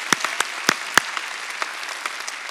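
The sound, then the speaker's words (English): Audience applause giving a big hand: thin, scattered claps with a few sharp louder ones, fairly quiet and alone. “Let's give all those people a big hand.”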